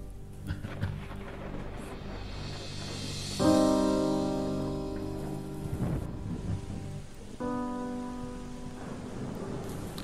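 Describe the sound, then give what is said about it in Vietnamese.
Heavy rain falls in a constant dense hiss with a low rumble beneath. Sustained tonal notes swell in twice over the downpour and fade under it. “Mưa mỗi lúc một lớn, lúc nhỏ, kéo dài từ chiều. Bây giờ đã hơn 8 giờ tối mà vẫn chưa có dấu hiệu dứt.”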